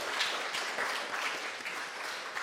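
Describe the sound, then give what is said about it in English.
Audience applause at a bookstore event in San Francisco, given for a centenarian guest. Dense, steady clapping holds an even level throughout, with no distinct voices over it. “So let's give a big round of applause for Lawrence, who just turned 100 this spring.”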